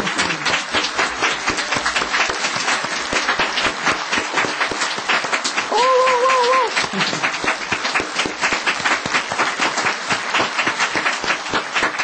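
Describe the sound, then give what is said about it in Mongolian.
Dense audience clapping and applause keeps up steadily for the full stretch at an even, fairly loud level, with many hands beating together and no clear pauses. “Бүгдээрээ илүү их чанга ташиг уу? Багштай илүү их чанга ташааж үзүүлээ те. Бүгдээрээ чанга ташицгаая.”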